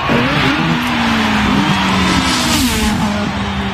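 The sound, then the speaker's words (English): Formula One race car engine revving loudly, a sustained, high, buzzing drone that holds steady with small wavers in pitch throughout, with no voices. “In every Formula One race, there's a pit stop with the range of expert mechanics ready by the track to quickly detect any issues with the race car”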